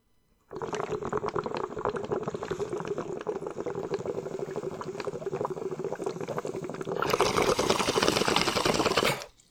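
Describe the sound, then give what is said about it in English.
A bowl of Kush cannabis being smoked, heard as a steady, dense bubbling gurgle for several seconds that turns louder and brighter near the end before cutting off abruptly. “All right, step three, smoke bowl.”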